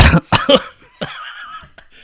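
A person coughs three times in quick, harsh bursts, then makes a longer, gravelly, voiced throat-clearing sound while bringing up phlegm.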